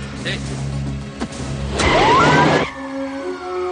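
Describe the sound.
Car noise from a 1998 action film, a steady engine hum that swells into a louder, rushing burst of vehicle sound midway before dropping back, with thin whining tones drifting above it.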